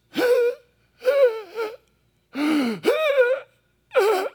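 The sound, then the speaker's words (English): A person imitating the strained, gasping breaths of someone dying on a cross and struggling to breathe: several loud, rasping, voiced gasps with a wavering pitch, separated by short silences in an uneven rhythm. “when people are dying on the cross, they're struggling to breathe. This is what it would be somewhat like, is like,”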